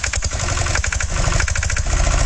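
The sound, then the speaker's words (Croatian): Engine of a 1976 Tomo Vinković tractor with 18 horsepower, running with a loud, steady, rhythmic chugging throb throughout. “Ma ne Tomo Vinkovića iz 1976. godine sa 18 konjskih snaga.”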